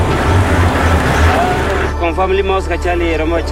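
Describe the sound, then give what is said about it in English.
A Jeep jolts over a bumpy stretch of road at night in grassland, its engine and body producing a loud, rough rumble with low thumps. The rumble then cuts off as the vehicle stops, and a voice speaks afterward. “The Jeep's headlights illuminate the grass ahead. A giraffe runs in the opposite direction. The Jeep drives over a bumpy portion of road and stops.”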